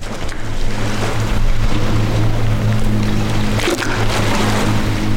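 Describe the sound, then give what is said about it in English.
The Notley River rushes against the rocky edge of Notley Dam in North Georgia, a dam completed during World War II. It makes a loud, continuous roar of churning water over a steady low droning hum. “Right now in North Georgia, at the Notley Dam, built and completed during World War II, and you're hearing the Notley River rushing up against the dam's rocky edge.”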